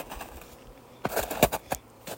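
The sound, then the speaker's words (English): Buzzing of honeybees flying around and returning to their hives after winter: faint at first, then a cluster of short, louder buzzing passes in the second half. “Lots of bees, lots of flights. The bees that survived the winter are out as well. I can tell because they're returning to their hives.”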